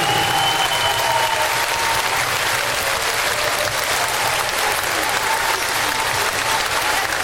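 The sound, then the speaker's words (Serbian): Audience applause at a folk music concert in an arena, right after a harp performance: dense, loud, continuous clapping from a large crowd with no break. “želim da dam ogroman aplauz za našu dragu lepu Irinu Pejovsku na harfi.”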